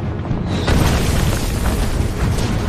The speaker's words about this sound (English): The Germans redirected the mortar rounds to the new American position.